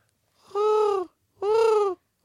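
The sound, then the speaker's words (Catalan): A person with a cold imitates a penguin call: two long, nasal, honking notes with a clear, even pitch, and a third just starting at the end. “Això és el soroll dels pingüins.”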